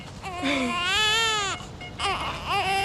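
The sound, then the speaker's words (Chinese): A baby cries in loud, high, wavering wails. A long cry is followed by a short pause and then a second burst of crying. “不哭了，不哭了啊！妈妈忙完就过来找你了啊！哎呦哦，不哭了，不哭了，不哭了，不哭了啊！”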